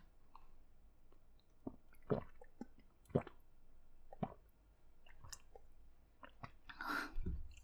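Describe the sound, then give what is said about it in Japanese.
Someone drinking water: irregular soft gulps, wet mouth clicks and swallowing noises spaced over several seconds, mostly quiet, with a fuller swallow near the end and no talking. “待って、ちょっと待って、お水飲んでいいですか？お水飲みます。”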